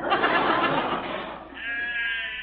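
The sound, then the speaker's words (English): Sheep bleating in a grazing flock: wavering, nasal bleats that blend together at first, then a clearer sustained bleat, moderately loud and heard without talk. “Gee, seeing them sheep makes me very homesick for my family.”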